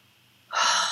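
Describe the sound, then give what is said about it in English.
A parent's deep breath: one sharp, loud inhale of rushing air starts after about half a second of quiet and holds to the end, with no talking. “Deep breath, right? Parent takes deep breath.”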